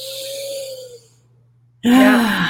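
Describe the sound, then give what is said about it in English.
A deep breath taken in and out: a soft, breathy sigh lasting about a second fades away, then after a short pause a voice begins speaking. “especially talking about inner peace, you know, just taking a deep breath and”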